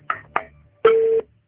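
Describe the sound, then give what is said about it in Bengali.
A phone call cut off right after being answered: two short clicks, then a single steady beep tone that holds briefly and stops abruptly. “আপনারা শুনতেই পাচ্ছেন phone receive করার সাথে সাথে কেটে যাচ্ছে।”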